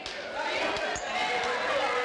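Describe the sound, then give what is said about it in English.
A basketball is dribbled a few times on the court by a player before a free throw at a girls' district final game, the bounces landing as low thuds over steady crowd murmur. “Taking her time with a couple of dribbles, eyes this one up, and splashes that in.”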